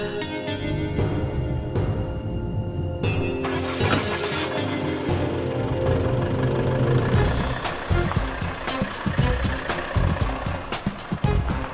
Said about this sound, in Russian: Видит, как наставник садится в иномарку и уезжает.